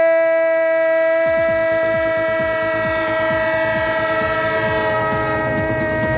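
Train horn holding a steady, bright chord throughout, joined after about a second by the rapid rhythmic clatter of wheels over rail joints, which continues loud to the end.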